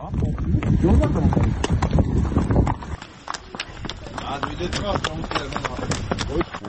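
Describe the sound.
Horse hooves clip-clop during a night ride on horseback, a steady run of many sharp hoof strikes, with people talking over the first half.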